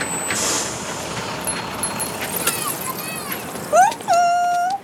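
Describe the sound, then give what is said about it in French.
Red double-decker buses in a street: low engine and traffic rumble with a sharp hissing burst early on, scattered clanks, then rising tonal whines and a sustained tone near the end. “Regarde, ici, les autobus sont rouges et ils ont deux étages.”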